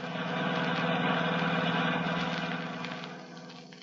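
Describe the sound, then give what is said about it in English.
Steady engine drone of a car driving through the San Bernardino Valley toward Hollywood, a dense, even hum with low rumble that holds level before slowly fading toward the end; no voices. “We find them now driving back to Hollywood through the beautiful San Bernardino Valley.”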